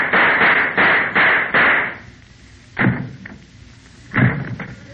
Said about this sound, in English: The two sound effects men shot each other.